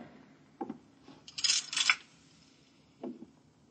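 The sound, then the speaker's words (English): A curtain is drawn, making a brief rasping swish in two quick strokes, with a soft thump before and after. “Just draw the curtain and then come here and sit down.”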